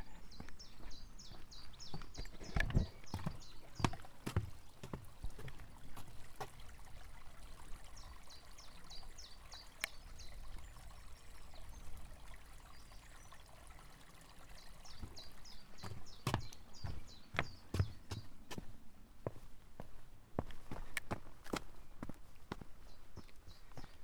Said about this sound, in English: Just about to walk over a wooden footbridge, over a stream.